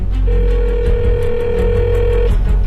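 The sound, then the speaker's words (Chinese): The first ringing tone after dialing comes through a telephone receiver as one long, steady mid-pitched tone lasting about two seconds. It sits over a constant low background rumble. “听筒里绵长的第一声灌入了他的耳朵”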